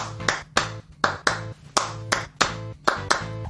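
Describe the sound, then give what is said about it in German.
Claps play the 3-2 son clave rhythm in a Cuban son-style Latin song. About nine sharp, bright hand claps punch through a sustained tonal instrumental backing. “hat die typische 3-2-Klave aus dem kubanischen Son in seinem Hook oder in seinem Riff.”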